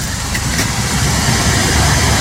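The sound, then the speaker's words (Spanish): A car drives through a flooded street, its engine hum mixed with a broad, rushing wash of noise that holds steady and loud throughout, with no voices. “Mira el vehículo. Mira el vehículo, pasó, pero esas olitas, esas olas llegan a las casas.”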